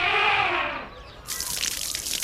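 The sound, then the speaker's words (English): Shower water runs, first as a steady, tap-like flow that fades, then as a bright, hissing spray that bursts in and keeps going evenly. “He has a shower every day.”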